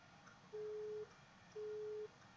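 A telephone busy signal sounds after a caller disconnects: two steady, evenly spaced beeps of one mid pitch, each about half a second long, above a faint hiss.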